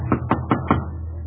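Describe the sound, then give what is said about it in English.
Knocking on the front door of a home in Berlin, Germany, by a stormtrooper: four sharp, evenly spaced raps over about a second, with no voices. “He knocks on the front door.”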